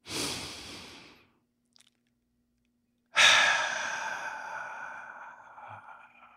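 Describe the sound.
A deep breath taken alone: a soft, breathy rush lasting about a second, a short silence, then a longer sighing exhale that slowly fades away.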